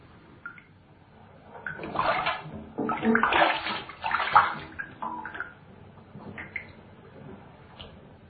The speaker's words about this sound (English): They hear the sound of bathwater, and the perverts are magically drawn in.